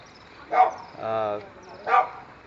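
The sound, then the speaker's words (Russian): A dog barks in a neighbourhood on an evening in Varanasi: a few short, sharp barks with a longer, more tonal call between them, fairly clear against a quiet background. “Собака лает в околотке.”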